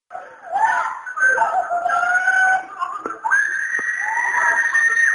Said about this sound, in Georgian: ეს კივილის ხმა ივნისში მობილურ ტელეფონზეა ჩაწერილი.